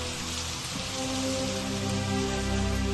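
Rain falling on a rainy day in Sydney: a soft, continuous hiss of rainfall at an even level throughout, with a low steady hum beneath it.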